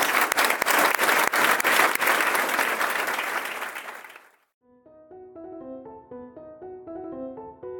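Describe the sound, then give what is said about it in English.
Audience applause thanking a guest speaker at a World Affairs Council event: dense, steady clapping for about four seconds that fades away, followed by soft, gentle music. “On behalf of World Affairs, I want to ask our audience to join me in thanking Amaryllis Fox for being here today.”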